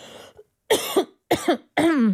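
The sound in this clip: Coughing from someone who had something go down the wrong way while talking: a faint rough start, then three loud, harsh bursts in quick succession, the last one voiced and drawn out.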